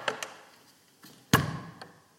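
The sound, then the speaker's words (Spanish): A wooden window's latch bolt is slid shut: a few light wooden taps and knocks, then one sharp, solid clack as the bolt seats, followed by a faint final tap. “Ahí está, cierra. El pasador pestillo, ¿cómo se llamará? Cerrado.”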